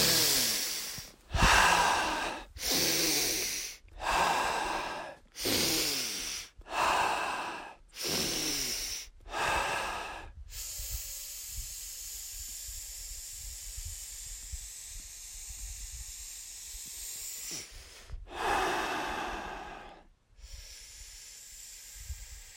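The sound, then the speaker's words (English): Deep breaths drawn in through the nose and pushed out through the mouth, many in a steady, even rhythm of loud hissing inhales and exhales, then a quieter stretch of faint hiss before another strong breath. “let's just do like 10 to 20 deep breaths right now. Just into the nose, out through the mouth.”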